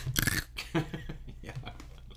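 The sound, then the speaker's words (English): Ice being chewed gives crisp, crunchy bursts: a loud crunch at the start, then a few shorter, fainter crunches spread through the rest. “You're chewing ice. Yeah, that's great audio for them.”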